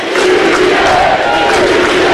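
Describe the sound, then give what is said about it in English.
A baseball crowd in Athens roars during a game, with a loud, steady mass of cheering voices sustained throughout. “With Black at second, and the crowd's finally into it today here in Athens.”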